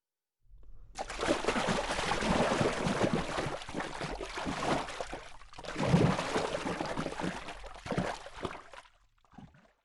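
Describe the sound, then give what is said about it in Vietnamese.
Water being slapped hard and splashing, a continuous churning spray of splashes that comes in two long surges before dying away. “Vâng ạ, đây là từ dùng để miêu tả âm thanh nước bị vỗ mạnh, bắn tung tóe.”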